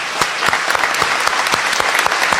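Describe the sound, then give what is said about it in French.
Applause from a gathered audience at a religious service: brisk, dense clapping in which sharp, fairly regular louder claps stand out, sustained at an even, moderately loud level throughout. “Et je voudrais qu'on l'applaudisse, notre Seigneur.”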